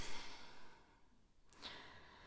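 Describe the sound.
A deep breath in a breathing exercise with shoulder raises: a faint, soft, airy exhale that fades away, followed by a brief breathy burst.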